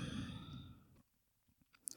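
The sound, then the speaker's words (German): A long, audible sighing exhale during a guided meditation, followed by near silence with a few faint clicks. “Und atme nochmal ein und aus”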